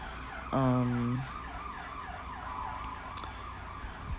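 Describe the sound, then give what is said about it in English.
An ambulance siren passes outside: a short, loud, tonal wail rises out of low traffic hum, then fades back into the steady background noise. “almost every single time we're gonna be dealing with these sirens. That's life these days.”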